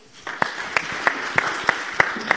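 An audience applauds a guest. A soft bed of clapping carries a run of about seven sharp, evenly spaced claps that stand out in a steady rhythm.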